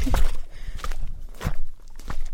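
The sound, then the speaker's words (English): Heavy footsteps trudge through thigh-deep water and mud from a tied boat toward a mangrove shore. A few uneven, dull thuds rise and fall over a low, muddy rumble, with no talk. “He ties the boat to some mangroves, jumps in the mud, and trudges to shore.”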